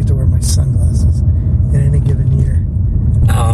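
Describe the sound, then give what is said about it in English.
A car driving up the motorway to Derby gives a loud, steady low rumble throughout, with people talking over it. “Here is the uh, drive up the motorway to Derby.”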